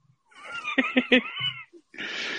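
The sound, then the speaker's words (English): A cat gives a drawn-out, wavering meow with a pulsing middle, followed by a short burst of rustling noise. “guess what? We have a visitor. All right. A visitor. Oh, must be the cat again.”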